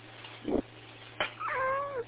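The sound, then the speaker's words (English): A cat meows close by. After two brief soft noises comes one drawn-out, wavering meow with a clear, rising-and-falling pitch, all over a low steady hum. “I just randomly had a cat climb into my face. Cat, do you have any words to say?”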